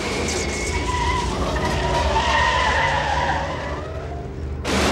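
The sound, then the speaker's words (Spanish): A car swerves sharply and skids, its tires squealing in a loud, sustained screech with shifting tonal whines over a broad rush of noise, lasting the whole clip with no voices. “Walter da volantazos tratando de desplazar a David.”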